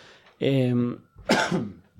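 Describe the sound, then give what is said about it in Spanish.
Two harsh coughs from a person, the first rough and voiced, the second a sharper burst, loud and set apart by a short pause. “perdón, que me ha dado la tos.”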